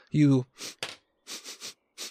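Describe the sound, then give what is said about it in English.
Rapid nasal sniffing by a person imitating a tracker dog: about six short, breathy sniffs in uneven bursts, following a brief voiced sound at the start. “And like a tracker dog, you're just sniffing around”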